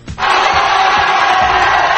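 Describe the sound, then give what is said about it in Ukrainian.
Loud roaring cheers burst out from relatives and loved ones as the 33 trapped miners of Chile's San José mine are lifted to the surface after 69 days underground. The crowd's shouting rises abruptly and then holds as a sustained, unbroken roar. “Всі 33 шахтарі, що пробули під землею, відрізані від усього світу 69 днів, підняли на поверхню під бурхливі вигуки рідних і близьких”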